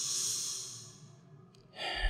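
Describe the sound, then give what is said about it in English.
A deep breath: a long, airy rush of breathing that thins out and then swells again near the end, heard alone with no talking. “Before you sit down, you put your hands, you take a deep.”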